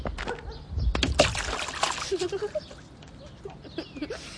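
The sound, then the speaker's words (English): A running jump into a mud puddle lands with a low, heavy thud, followed by a quick burst of splashing and then several softer sloshes and drips as the muddy water settles. “Are you afraid? Of a mud puddle? Of course not. I'll need a running start, but watch this.”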